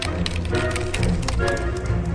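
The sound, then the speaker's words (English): Rapid clatter of a computer keyboard as a question is typed in: many quick, light taps in a steady run with no pauses. “You just type in the question, it will read his mind.”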